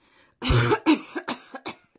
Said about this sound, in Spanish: Estás tosiendo como un fumador empedernido.